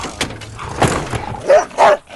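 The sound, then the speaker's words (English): A large dog barks while jumping at a door: a few loud, rough barks in quick succession, with softer scuffling between them. “A large dog jumps at the door.”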